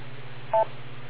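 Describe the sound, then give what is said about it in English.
A single short electronic beep on a D-Star amateur radio link, a brief steady dual tone over a constant low hum. “For B2RYY, K2RYW, wait for the beep.”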